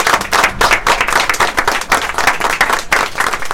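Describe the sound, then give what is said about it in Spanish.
Applause in a studio welcoming guests, with dense, continuous clapping at a steady, loud level throughout and no voices. “Venga, arrímese. Vamos a recibir con un fuerte aplauso.”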